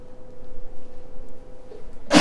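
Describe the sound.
A single sharp sneeze bursts out at the very end, after a stretch of quiet low background hum.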